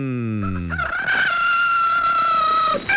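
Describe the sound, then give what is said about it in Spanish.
A rooster crows once in a single long, loud, sustained call that holds steady before breaking off. “Escucha la hora del gallito en la SJ”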